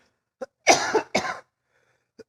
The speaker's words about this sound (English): I haven't coughed in hours until I get on stage.